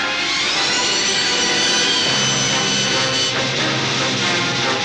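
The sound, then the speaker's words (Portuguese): A spaceship roars as it takes off from inside an asteroid cave in The Empire Strikes Back: a loud, sustained, hissing engine blast that holds steady throughout, with a deeper low hum joining about halfway through. “Não pode passar para a velocidade da luz com esses asteroides. Senta aí, nós estamos decolando.”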